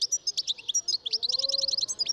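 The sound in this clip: A male goldfinch sings near the nest while the female builds it, in a tree such as birch, linden or oak. Its song is a rapid, high-pitched twittering of many short, bright notes, fairly loud and quickening toward the end.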